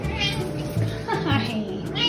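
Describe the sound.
Meowing from a 14-year-old light gray tortoiseshell cat: a few drawn-out, voice-like meows that bend in pitch over a constant background hiss.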